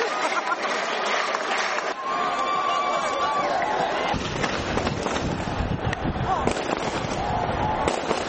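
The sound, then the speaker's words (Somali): Celebratory gunfire shot into the air by government soldiers in Mogadishu after a new president's election, many sharp cracks and pops over continuous crowd chatter and wind noise. “waxaana jiho walba laga maqlayay rasaas taageer ah oo ay kor u ridayeen ciidamada dowladda”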